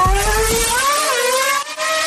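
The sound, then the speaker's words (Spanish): A car engine revs loudly and accelerates, its whining tone sweeping upward and wavering as it climbs, with a brief dip near the end and no voices. “Mira velocidad. Pisamos el acelerador.”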